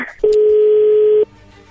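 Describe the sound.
A single steady telephone tone sounds while a call is being placed, holding at one pitch for about a second, loud and clean before cutting off.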